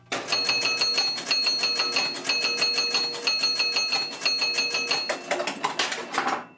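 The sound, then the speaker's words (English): Pinball machine running an automated scoring sequence, adding points on its own and advancing the ball-in-play light: rapid mechanical clicking with ringing chime tones in about five even bursts, then a short irregular rattle at the end. “Yep, it added 25,000 points to the score all on its own, then changed the ball in play light from 1 to 2.”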